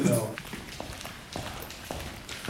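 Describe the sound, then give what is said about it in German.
Footsteps walk through the hallway of the John Cage House, a former monastery building, a steady series of soft treads while people talk. “Und wir laufen jetzt gerade durch den Flur des einen, also des John Cage Hauses, ehemaliges Klostergebäude.”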